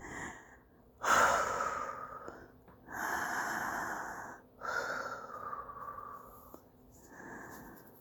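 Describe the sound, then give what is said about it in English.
A person breathes heavily, taking several long, ragged, gasping breaths separated by short pauses. The sounds are loud and breathy, and no one speaks. “Babe, are you okay? Just breathe. It's okay.”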